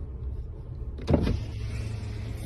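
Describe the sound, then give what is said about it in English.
A car's power window goes down while the car drives along a roadway. A low motor whir runs under steady engine and road rumble, with one brief, louder swell partway through. “There's the window going down.”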